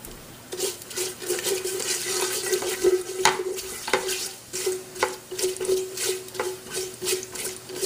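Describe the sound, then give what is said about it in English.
Cumin seeds frying in a pan as a spatula stirs them: steady crackling sizzle with many repeated scraping strokes, some sharper clacks of the spatula against the pan, and no voices. “So I heard them popping. I'm going to go ahead and add the cumin seeds in there. I'm going to grab another spatula here.”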